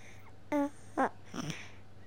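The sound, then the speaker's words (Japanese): A two-month-old baby's soothing babble: two brief cooing sounds, then a soft breathy vocalization, faint over a low steady hum. “2ヶ月ベビちゃんの癒しボイスを最後にお届けしておきます。”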